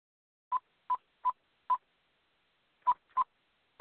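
Telephone dialing tones as a line is opened to bring someone onto a call: seven short, clear beeps at a similar pitch. Four come evenly spaced, then a pause, then three more, with silence between them.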